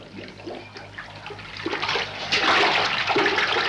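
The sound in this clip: Water splashing and pouring at a Turkish bath basin as someone washes, a continuous gushing, running sound that grows louder and fuller toward the end.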